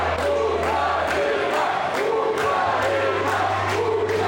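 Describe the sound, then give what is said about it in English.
Ukrainian boxing team supporters cheer at the end of a bout in the hub in Castlereagh: a loud, continuous crowd roar with shouts, pulsing at a rough regular beat. “The crowd and the noise you hear is that, in fact, of the Ukrainian team and their supporters.”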